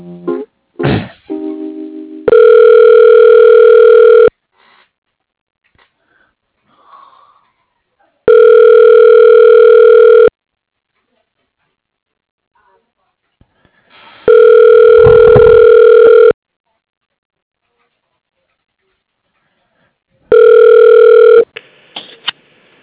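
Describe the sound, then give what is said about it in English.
A telephone line rings while a call is transferred to voicemail: four steady ringback tones, each about two seconds long, spaced roughly six seconds apart with silence between, after a few brief clicks at the start. “Okay, hang on. I'll send you over to his voicemail.”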